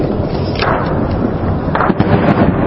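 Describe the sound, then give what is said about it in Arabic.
Heavy shelling and gunfire during clashes in the Baba and Inshaat districts, heard as a dense, continuous roar of booms and crackling with a few sharper bursts, loud throughout and without clear talk. “مثل العادي في شوية اطلاق نار وشوية اشتباك. قصف حنيف على حي بابا حي الانشاءات.”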